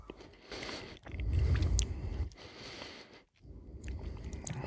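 Chewing a bite of layered cake with a jam layer and green flecks of almond marzipan: soft, continuous wet munching and crunching, fairly faint, with a brief pause near the end and no talk.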